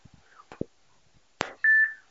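A phone call cutting off on the line: a few short clicks, then a single steady mid-pitched beep that holds briefly before ending.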